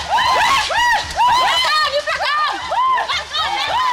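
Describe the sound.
Local villagers cheer and shout in a traditional greeting, many overlapping high calls that swoop up and down in quick succession, loud and continuous with brief dips.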